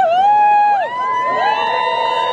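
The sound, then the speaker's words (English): Onlookers cheer as a solar eclipse plunges a corner of Iceland into darkness, with loud, drawn-out whooping calls whose pitch slides down and then back up. “As people took off their glasses and stared wide-eyed at the sky, some cheered, others fell into silence.”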